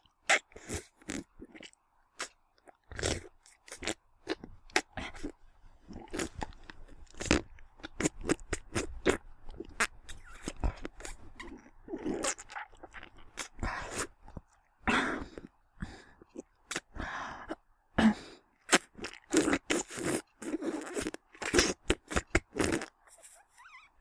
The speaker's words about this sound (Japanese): いただきます